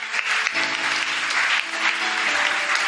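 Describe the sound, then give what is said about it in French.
Church audience applauding loudly during a French-language service, a thick continuous clatter of many hands that holds a strong, even level from start to finish. “On peut acclamer très fort le Seigneur.”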